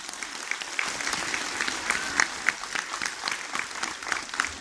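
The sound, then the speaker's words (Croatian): Audience applause at a public address in Podgorica, a steady wash of many hands clapping at even loudness throughout, with sharper individual claps standing out here and there. “Vaš aplauz to potvrđuje.”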